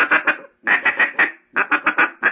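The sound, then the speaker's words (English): A duck call blown to imitate a duck's quack gives raspy, nasal quacks in three quick runs separated by short pauses. “throw a little light, real soft gut in there for a quack. And you'll think it's a quack.”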